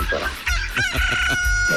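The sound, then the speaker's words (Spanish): A rooster crows at 5:25 in the morning, one loud, strained crow on its own with no voices over it. “Todavía está dormido mi gallo. Todo está dormido el gallito. Ya levante ese gallo”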